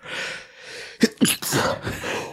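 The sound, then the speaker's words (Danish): A person sneezes in two sharp, loud bursts, followed by breathy noise, over a steady hissing background. “Og nyser ferdig først.”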